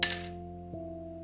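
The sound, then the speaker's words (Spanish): A drinking glass thrown to the floor gives a single sharp, bright clink that rings out briefly over a steady, low sustained tone. “caminó hacia el vaso con determinación y lo tiró al suelo.”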